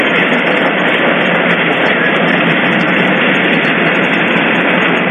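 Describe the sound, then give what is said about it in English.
Amusement park ride running down through a small chicane toward a stop, heard as a loud, steady, rolling rumble. It holds without pause or clear change for the whole stretch. “the ride's coming to a close. All right. So the ride comes down and goes through like a little chicane, and that's coming to stop.”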